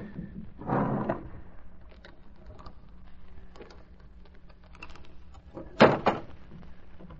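A safe being opened in an inner office: a scraping rumble near the start, a few faint clicks, then a sharper, louder clunk near the end over a quiet background.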